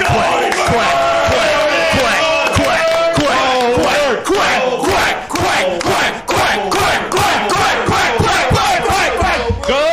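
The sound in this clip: Loud cheering from a studio audience celebrating someone's graduation from drug court: many voices shout and whoop together, building into rhythmic bursts of cheering toward the end.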